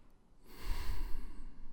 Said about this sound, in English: let's just take a breath. Let that settle for a second.